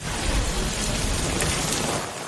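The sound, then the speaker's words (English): Heavy rain from a severe thunderstorm in the southeastern states, a dense and steady downpour hissing loudly and evenly throughout with no voices. “Severe storms targeting the southeast, from relentless rain to flooded roads to damaging winds tearing through neighborhoods. Lightning striking dangerously close to homes.”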